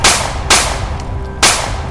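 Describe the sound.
Three loud, sharp gunshots are fired at a formless creature, the first two close together and the third after a short gap, each a harsh crack that trails off into a brief ringing decay.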